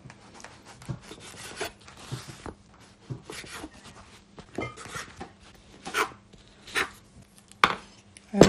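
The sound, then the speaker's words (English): A knife cuts up bread for a plum pudding in many rasping sawing strokes, broken by a few sharper taps on a board. The strokes come in uneven bursts with short pauses, with no talking. “I think I'll start um, cutting up the bread first, so I'll start from the beginning.”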